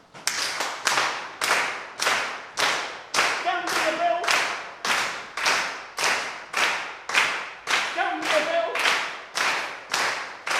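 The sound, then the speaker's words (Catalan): Hand clapping and foot stamping in body percussion keep a steady, even beat of many sharp claps and thuds. Voices call out briefly a couple of times. “Jo no sé si ja heu agafat el ritme amb aquestes mamballetes”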